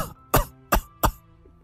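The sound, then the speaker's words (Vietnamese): Three sharp, loud coughs from an 80-year-old man, evenly spaced within a second and a half, with near-silence between them. “liên tục ho khụ khụ”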